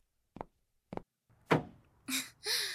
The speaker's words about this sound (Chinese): 还得是你们男人有力气，一下子就把后备箱关上了。